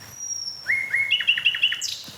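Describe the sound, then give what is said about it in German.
A nightingale sings on the first of May just after midnight: a few clear sliding whistles, then a quick run of repeated bright, higher notes, ending on a sharp top note. “Sehr schön. Danke, liebe Nachtigall.”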